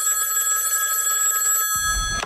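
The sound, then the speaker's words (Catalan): A telephone rings with an incoming call: a steady electronic ring tone holds for most of the moment, then gives way to a short, dull low-pitched burst near the end. “va rebre una trucada de Maurici, el de los Pallaresos”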